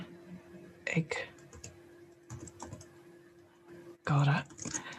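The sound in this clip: Typing on a computer keyboard comes as a few short bursts of quiet clicking separated by pauses, faint overall, over a steady low hum.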